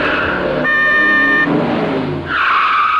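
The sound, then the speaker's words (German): A car horn blares for about a second over a loud, roaring engine as a car with flaring headlights races toward the listeners. A rushing, screeching surge follows as the car closes in. “Zwei Lichter flammten auf, eine Hupe gellte und ein Motor heulte auf. Der Wagen kam auf uns zugerast.”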